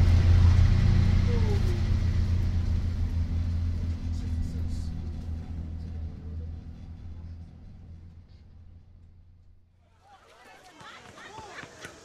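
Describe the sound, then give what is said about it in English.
Shuttle bus engine rumbles in a canyon, resonating off its walls: a loud, low, steady drone that gradually fades over several seconds into near quiet, with a brief scatter of higher noise at the end. “the sound of the shuttle bus resonating against the walls of the canyon.”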